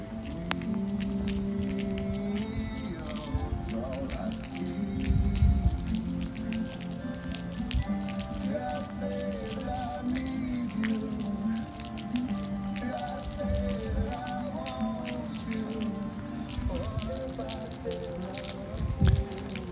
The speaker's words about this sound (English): perhaps I'll pull the zipper shut for a moment and just breathe in this rain and see what's playing.